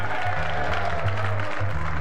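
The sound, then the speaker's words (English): A studio audience at a political debate show applauds in a dense, steady roar of clapping, with low crowd voices mixed underneath. The sound stays loud and even throughout. “And by your applause, how many Republicans do we have here today?”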